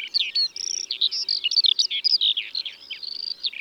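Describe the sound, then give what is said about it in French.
A Eurasian skylark sings a rapid, unbroken stream of high, twittering and warbling notes. The notes tumble quickly in changing pitch, fairly soft and without pause. “C'est un chant vraiment exceptionnel. L'alouette des champs peut chanter 400 notes par seconde.”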